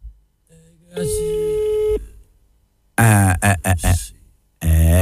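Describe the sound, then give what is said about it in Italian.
A telephone tone sounds while a number is dialed for a call-in: a steady, buzzing tone holds for about a second after some faint noises, then loud talking follows. “Io, mentre faccio il numero di telefono, ok?”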